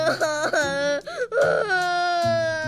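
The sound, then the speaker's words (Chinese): A young girl cries in loud, high, wavering wails and sobs. The crying is broken by a few brief catches of breath. “彤彤越说越激动，竟然哭了起来。”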